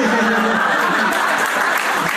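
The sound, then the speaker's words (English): Comedy show audience applauding, a full, steady wash of clapping with some chuckles and laughter mixed in. “Well, thank you for the applause.”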